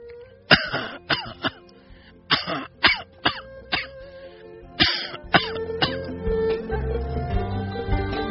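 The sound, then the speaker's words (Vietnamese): An elderly woman lying in bed coughs hoarsely in a long run of harsh, rasping bursts, some bunched closely together and others spaced apart, with throat-clearing sounds between them. “Bà trở mình ra ở phía ông Tám, khục khặc ho.”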